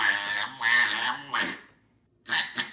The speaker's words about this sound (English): That is a one-year-old little boy who has found his voice and is saying the weirdest things now.